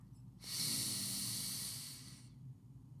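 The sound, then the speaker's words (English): A single deep breath drawn in through the nose during a guided breathing exercise, a smooth airy hiss lasting nearly two seconds with no talk over it. “i want you to just take a deep breath in through your nose”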